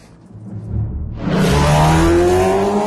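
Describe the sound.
A car engine revs up, going from a low idle rumble to a sudden loud, sustained roar that holds steady to the end.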